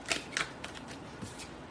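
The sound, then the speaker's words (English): Tarot cards being shuffled and drawn from the deck: two crisp riffling snaps open, followed by softer scattered flicks and rustles, all faint. “I'm going to pull out a couple more cards just because I'm a little curious.”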